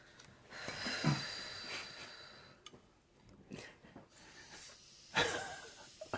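Wheezy, rasping inhalations of helium gas drawn from a new jumbo can with the nose pinched: a few uneven breaths and hisses separated by quieter gaps, the last one the loudest.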